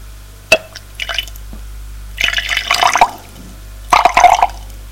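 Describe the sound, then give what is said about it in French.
Water is poured into a glass in a few short bursts of trickling and splashing, with a sharp click before the first pour. No voices are heard. “en met un peu dedans. Met de l'eau.”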